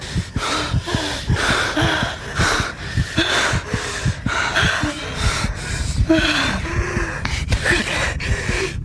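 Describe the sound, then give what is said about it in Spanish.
Heavy, rapid panting from people who have just run hard and thrown themselves onto the floor of an abandoned tannery shed. Many ragged, gasping breaths follow one another in a steady rhythm, loud and continuous, with no talk. “Entran al galpón, cierran los portones y se tiran al suelo a sacar el aliento.”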